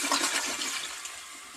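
A toilet flushing, with a brief rush of swirling water draining away that is strongest at the start and gradually fades over a second and a half.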